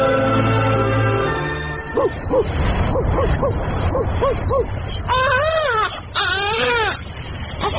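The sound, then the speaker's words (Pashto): An infant cries in a drama scene, a child who seems healthy but will not settle. After a steady tone, many short, sharp cries come in quick succession, then give way to longer, wavering high wails, loud throughout. “او خزې دې ماشوم خو مغزه راوخړل، دا ولې نغلی کوي؟”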